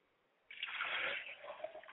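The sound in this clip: Liquid is poured as a libation in a ceremony for babies who have passed on: a faint, steady splashing stream starts abruptly after a moment of quiet and continues to the end.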